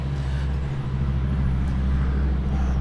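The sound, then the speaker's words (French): Road vehicles pass by in a continuous wash of traffic noise, a steady low rumble with a constant hiss above it and no clear gaps between them. “A contrario d'ici où on entend bien les véhicules passer”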